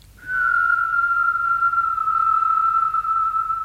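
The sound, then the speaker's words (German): A person whistles one long, steady high note, held for over three seconds, loud and alone, with the pitch sagging very slightly toward the end. “Pfeifen.”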